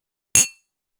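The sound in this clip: Glasses clink in a toast, a single bright, ringing glassy chink that decays quickly into silence.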